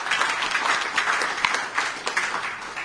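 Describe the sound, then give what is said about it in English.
An audience applauds a speaker with a round of clapping, a dense patter of many hands with small swells in loudness, heard alone without talk. “I can tell you it's rare that people get a round of applause right at the start.”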